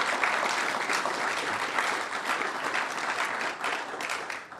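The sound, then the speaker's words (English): A Commonwealth Club audience gives steady, dense applause to welcome a guest speaker, Wyoming's governor. The clapping stays full and continuous for the whole stretch, with no voices standing out. “Please give him a warm Commonwealth Club welcome.”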